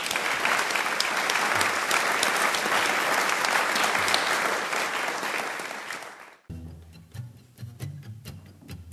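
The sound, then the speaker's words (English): Audience applause at the Matthews Opera House in Spearfish, South Dakota: dense, steady clapping from a crowd that holds for about six seconds before fading, followed by quieter low tones. “I take this chance to thank the beautiful Matthews Opera House in Spearfish, South Dakota. Sean, Jane, Jack up there doing the sound. How about a big hand for all of them, please?”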